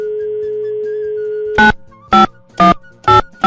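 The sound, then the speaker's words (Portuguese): Phone audio on an outgoing call: a steady electronic tone holds for about a second and a half, then four short, loud ringing bursts follow at even intervals with brief gaps between them. “Ele tá pedindo para eu ligar para ele. Deixa eu ver se ele me atende.”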